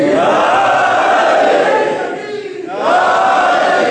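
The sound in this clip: A crowd at a devotional gathering chants slogans together in loud, sustained unison, dips briefly into a lull, then resumes at full strength.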